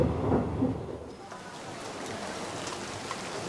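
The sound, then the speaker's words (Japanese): Steady rain falling outside a railway station's ticket gates: a dense, even hiss that holds at a constant level for a few seconds, with a fuller low rumble in the opening second and no voices. “駅の改札を出ると雨が降っていた。”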